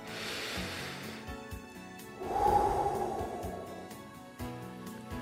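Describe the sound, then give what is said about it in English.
One person takes a slow, deep breath, a soft airy rush that swells and holds for about two seconds. It is fairly quiet, with faint breathy noise and soft tones before and after it. “Let's take a breath and have a prayer.”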